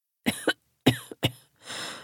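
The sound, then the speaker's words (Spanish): A harsh coughing fit, with several short, rough coughs in quick uneven bursts followed by a longer, noisier hoarse burst at the end. “saludó con voz cavernosa, interrumpida por un ataque de tos”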